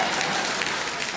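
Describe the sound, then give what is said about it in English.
Audience applause: a dense, even patter of many hands clapping holds steady through the short moment. “Don't applaud too loudly, girls.”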